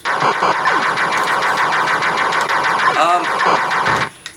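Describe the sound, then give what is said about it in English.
Enemy ships fire in wave after wave in a shooter video game, producing a dense, continuous barrage of rapid, buzzing electronic shots and engine-like drone with sweeping tones, loud throughout before cutting off near the end. “you got wave after wave of ships bearing down on you, firing as they come.”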